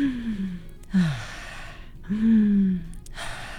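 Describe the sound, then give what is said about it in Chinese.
Very deep, long breaths are drawn in and let out in slow succession, each a loud airy rush, with some exhales carrying a low voiced sigh and no talk. “你觉得手痒的时候可以这样子做3次的极深的长呼吸，”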